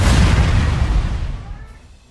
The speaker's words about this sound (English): The lightning struck the stairs and destroyed them.